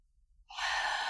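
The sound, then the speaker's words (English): A deep, audible inhalation during a breathing exercise, with the air pushed to the back of the throat. After a short silence, a steady, breathy rush of air begins and holds strongly to the end. “kind of push the air to the back of your throat, so you're going to make some noise. In, feel your belly.”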